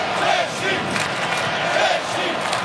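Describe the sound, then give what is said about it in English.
Mexican football fans chant in a stadium during a match against Czechia, a loud, dense crowd roar with rising and falling waves of massed voices. “But the noise being generated by the Mexican fans. I think it's fair to say they're slightly outnumbered, isn't it?”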